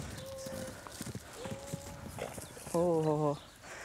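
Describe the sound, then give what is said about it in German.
Clip-clop of hooves from an excited mare moving with her foal, a few uneven steps under quiet talk, then a short, loud whinny near the end. “Gut, dass die anderen zwei Stuten erst einmal auf Abstand bleiben. So können Lenny und ihr Fohlen in Ruhe die neuen Eindrücke verarbeiten.”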